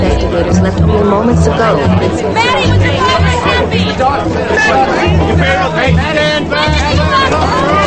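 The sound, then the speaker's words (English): A throng of reporters chatters outside a driveway blocked by police barricades, a loud, continuous babble of many overlapping voices. “She approaches her driveway where police barricades block the entrance from a throng of reporters.”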